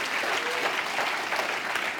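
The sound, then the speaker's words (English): A church audience claps its hands together during worship, making a dense, continuous patter of many hands that stays steady and fairly loud for a couple of seconds without a break. “Let's clap our hands to Him right now. Come on.”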